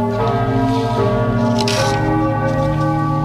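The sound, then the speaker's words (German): Ulm Minster church bells are struck to play a sound logo: a few loud strikes with deep, overlapping tones that ring on and sustain, shifting in pitch from one strike to the next. “Wir werden das Radio 7 Sound Logo live auf den Ulmer Münsterglocken schlagen. Hört sich dann so an, hoffentlich.”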